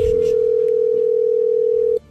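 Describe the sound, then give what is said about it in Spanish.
A telephone dial tone as a radio station calls a contest winner holds one steady, loud pitch for about two seconds, then cuts off abruptly. “Estamos marcando.”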